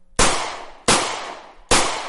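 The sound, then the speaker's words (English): Gunshots: three loud, sharp bangs spaced under a second apart, each followed by a long, fading, rumbling tail. “Those are the gunshots of freedom ringing out through America.”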